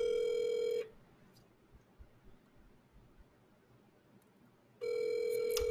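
Ringing of an outgoing telephone call: two steady, buzzy ring tones, each lasting under a second and separated by about four seconds of low background hiss. The second ring runs to the end.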